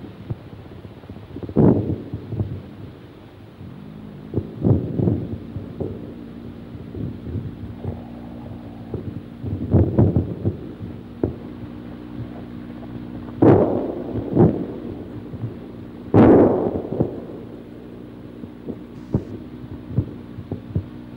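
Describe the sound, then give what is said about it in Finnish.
Artillery fire booms across the shore on a wartime isthmus front: many dull, low thuds over a steady hum. A few sharper, stronger blasts from friendly guns stand out among them. “nyt hetkisen vihollisen tykistön puhua tähän mikrofoniin, käännän sen tuon naapurirannan puolelle ja jos tuohon ääneen sotkeutuu voimakkaampia tärähdyksiä, on se osoituksena siitä, että meikäläisetkin antavat silloin tällöin panoksensa peliin.”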